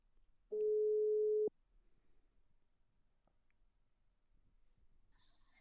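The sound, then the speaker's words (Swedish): Ringback tone heard while calling someone: one steady, low beep lasting about a second, then near silence, with a brief high tone at the very end. “så nu testar vi att ringa upp honom då och se vad han har att säga.”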